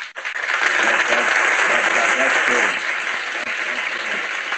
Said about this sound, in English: Matter of fact, I got to clap for that for real.